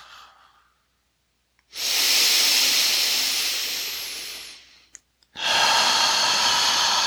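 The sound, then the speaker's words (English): Forceful exhaling while pulling the belly in during a breathing exercise: two long, loud, hissing breaths, the first steadily fading over about three seconds, the second starting after a brief pause. “we're going to just start exhaling, pulling our belly in.”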